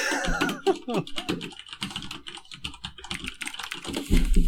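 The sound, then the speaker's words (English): Rapid clicking of typing on a computer keyboard: many keystrokes in a quick, irregular patter, with a voice talking over the opening stretch. “This is typing.”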